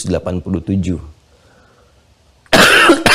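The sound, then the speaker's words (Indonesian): A single loud, harsh cough from a lecturer during a Quran lesson, following a stretch of speech and a short quiet pause. “Saya sudah minta izin di awal ya untuk diselingi dengan batuk. Jadi tidak perlu kaget lagi.”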